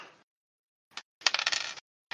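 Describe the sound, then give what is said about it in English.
Dice clattering in a tabletop game as fourteen dice are rolled at once, heard as a few short, bright rattling bursts separated by silence, with the longest burst in the middle and no talk. “I'm rolling 14 dice for each of them.”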